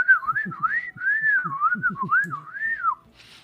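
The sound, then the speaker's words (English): A person whistles their full name as a clear, wavering melodic phrase, the pitch sliding up and down in connected swoops, with soft low clicks beneath and a brief hiss after it ends. “I'm going to whistle my name now, okay?”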